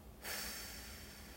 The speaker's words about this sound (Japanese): 吐き切る吸ってはい最後です吐きましょ